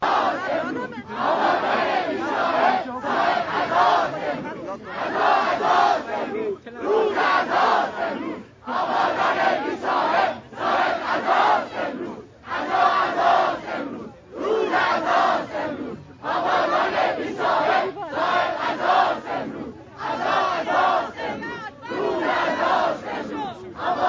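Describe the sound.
Protesters surrounding security forces shout as a crowd in unison: loud chanted bursts repeat steadily, separated by brief pauses.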